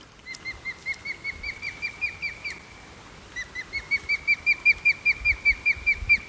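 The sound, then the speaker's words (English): An osprey near its nest gives a serious alarm call: many sharp, high chirps in a steady rhythm, a brief pause, then a louder, evenly spaced run of the same calls. “That's the male over there. That call there is the seriously alarmed call.”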